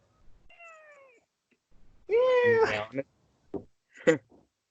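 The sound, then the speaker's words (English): A large cat meows toward a camera, giving a few separate meows: a faint, thin cry, then a long, loud, wavering meow, followed by shorter, quieter calls. “Meowing to the camera.”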